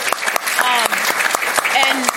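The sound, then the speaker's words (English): Audience applause breaks out during a political speech about Illinois and immigration: dense, steady clapping that holds at an even level for the whole stretch, with voices or cheers rising over it. “yes, we have to clap to that.”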